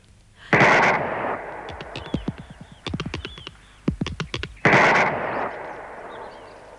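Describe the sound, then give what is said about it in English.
Two loud gunshots boom a few seconds apart, fired at a thing in a garden, each with a rumbling tail. Between them, a quick series of sharp clattering clicks fills the gap. “I'm going to shoot the top off it.”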